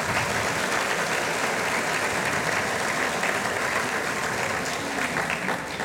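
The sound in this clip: Dense, sustained applause from an audience welcoming a guest author to a book talk. The clapping stays full and even from start to finish, with no talk over it.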